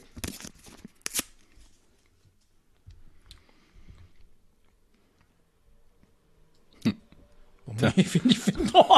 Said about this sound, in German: Umschlag 3. Also. Den mache ich jetzt auf.